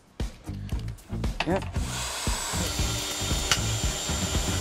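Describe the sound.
A power drill drives screws into wooden boards, its steady, loud whir starting partway through after a few people talk at the start.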